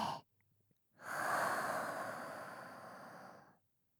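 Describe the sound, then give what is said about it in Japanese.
Slow breathing during a breathing exercise, in through the nose and out through the mouth: a brief breath sound, a pause, then one long, steady, airy exhale of about two and a half seconds that fades out. “鼻から吸って口から吐いて、”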